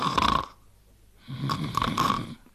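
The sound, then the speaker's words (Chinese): A child's snoring, imitated by a voice: two rasping, breathy snores separated by a short quiet pause, the second longer and wavering. “一边站着跟着一边打呼噜。”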